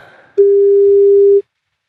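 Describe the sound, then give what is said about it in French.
A telephone ringing tone while a call is placed, one steady mid-pitched beep lasting about a second, clean and alone, with silence after it. “Allez, on tente le coup, faisons le numéro. Est-ce qu'il va décrocher ?”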